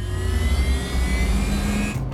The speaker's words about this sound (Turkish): Vay canına, bu araba gerçekten çok çabuk hızlanabiliyor.